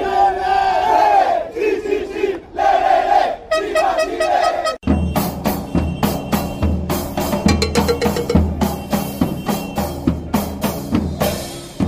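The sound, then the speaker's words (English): Chile football fans sing en masse at the Maracanã Stadium in Rio during a World Cup group match against Spain, a loud sustained chant. After about five seconds, steady rhythmic percussive hits join the roaring voices. “we watched Chile at the World Cup just over a year ago at the Maracanã Stadium in Rio in Brazil when they beat defending champion Spain 2-0 in a group game. And this was the sound of their fans.”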